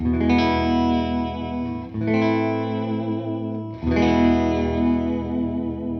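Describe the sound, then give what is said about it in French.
A Danelectro Mosrite tribute electric guitar with a Bigsby tremolo plays three strummed chords. Each chord rings out long with a shimmering, effects-laden, slightly distorted tone. “c'est quand même une Dan Electro hommage Mosrite. Donc on va juste écouter ensemble ce que donne le Bixby pour quelques petits trémolos musicaux.”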